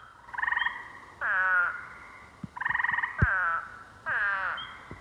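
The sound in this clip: Frogs croaking, with male calls answered by females: bursts of raspy, harmonic croaks come in alternating pairs, one buzzy and even, the other warbling, with a few sharp low knocks between them.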